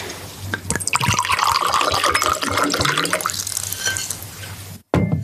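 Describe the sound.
Wine poured into a glass: a continuous gurgling, splashing stream of liquid that runs steadily for several seconds, then cuts off abruptly, followed by a brief knock.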